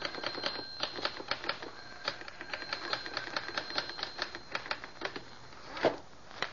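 A typewriter is used to type a script in a study, with many quick, irregular keystroke clicks in a steady faint patter and one sharper louder strike near the end.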